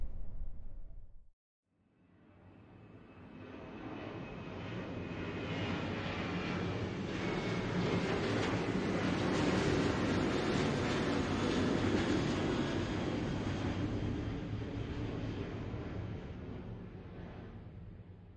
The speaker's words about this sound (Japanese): 旅の音に耳を澄ませてみてください。まもなく当機は離陸いたします。